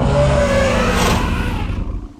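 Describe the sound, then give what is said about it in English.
A deep, loud roar from a large, hulking furry creature in a forest: one sustained, rumbling blast holds strong for nearly two seconds, then fades out. “Its roars rumbled through their rib cages, making their hearts stutter.”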